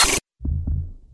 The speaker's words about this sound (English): This is the sound of a normal heart.